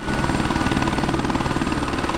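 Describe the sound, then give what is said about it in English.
A helicopter takes off from a small airport in Salida, carrying a long sensor boom on its nose. Its rotor throbs in a fast, steady, loud pulse over a constant engine roar, with no voices. “A helicopter takes off from a small airport in Salida.”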